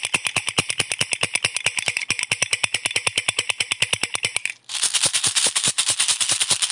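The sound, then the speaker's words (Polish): Car and tractor engines in a children's vehicle game. A fast, even stream of hard chugging pulses breaks off briefly near the end, then a brighter, buzzier engine drone continues. “co to za pojazd? Samochód. I traktor.”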